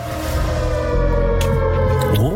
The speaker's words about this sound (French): On est dans l'ambiance de sirène. Ambiance catastrophe, hein.